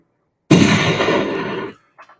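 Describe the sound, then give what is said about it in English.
A gunshot sound effect in a Halloween haunt scene where Dr. Loomis shoots Michael: one sudden loud blast that becomes a long, steady roaring tail before cutting off, followed by a couple of faint short sounds. “Dr. Loomis is going to shoot Michael.”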